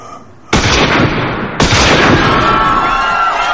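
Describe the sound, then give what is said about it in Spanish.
Gunfire in a shootout between rebels and armed men: two sharp, very loud blasts set off dense, sustained crackling noise that stays loud to the end. “Los rebeldes y los hombres de Walter se disparan sin piedad.”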